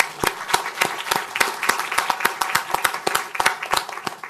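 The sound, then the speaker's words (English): Audience applause welcoming a guest speaker at a Brookings event: a steady run of many sharp, overlapping hand claps at a brisk, uneven rhythm, fairly loud and continuous for the whole stretch with no talk. “And before I go any further, could you please join me in welcoming Amy to Brookings?”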